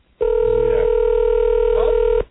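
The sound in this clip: A steady telephone tone while a cell phone number is dialed: one continuous mid-pitched electronic hum with a strong fundamental and faint overtones, starting abruptly and holding level for about two seconds before cutting off.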